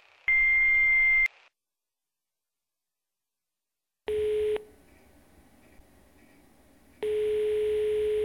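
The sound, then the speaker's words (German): Electronic beeps from a telephone answering machine: a high, steady beep lasting about a second, a silent pause, then a short lower beep and a longer sustained lower tone. “Nach dem Signalton können Sie eine Nachricht hinterlassen.”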